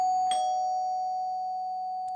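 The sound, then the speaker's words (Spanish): A doorbell rings: one bright electronic chime strikes and holds as a steady, slowly fading tone, then a second strike begins right at the end. No voices. “Soa o timbre.”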